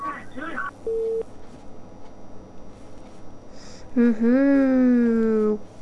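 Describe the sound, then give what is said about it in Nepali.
A telephone line tone sounds on a radio call-in after a caller's call has dropped. A short, steady, mid-pitched beep stands out early, surrounded by talk. “कोही साथी हुनुहुन्थ्यो telephone लाइनमा छुटेर गइसक्नु भयो, फेरि try गर्न सक्नुहुन्छ।”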